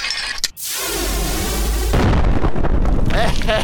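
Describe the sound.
A bazooka shell explosion used as a comedy sketch sound effect: a sharp burst, then a long loud roaring blast that gives way to a lower rumble with scattered crackles.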